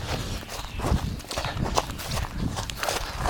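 Running footsteps of a person jogging outdoors through a grassy cul-de-sac on a trail, a steady rhythmic stream of many soft thudding strides.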